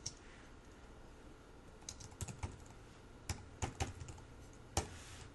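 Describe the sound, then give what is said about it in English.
Faint typing of a name on a computer keyboard: sparse, light key clicks in small clusters, several taps close together with pauses between. “All right, so here we're just going to type in the name of the member and then”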